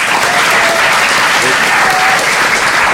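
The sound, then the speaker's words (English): Loud, dense audience applause for the players at a live quiz, continuous clapping without a break. “And before we announce a big round of applause for all of our players”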